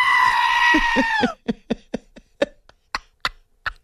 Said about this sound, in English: our fascination with goats who sound like people ruined his morning commute